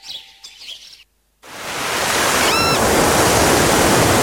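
Sea waves wash steadily onto the shore at Baško Polje on the Makarska riviera, a continuous broad surf rush that swells in after a brief silence, with a short bird chirp briefly heard above it.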